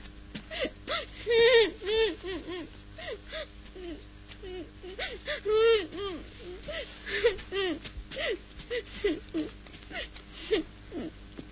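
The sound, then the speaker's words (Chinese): A child cries in a staged drama, with many short, wavering, high-pitched sobs and whimpers broken by breathy gasps, rising and falling in uneven bursts. “为什么哭啊？”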